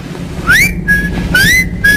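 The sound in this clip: A person whistling into a telephone: two repeated phrases, each sliding upward into a clear, held high note. The whistling is loud over a low background hum.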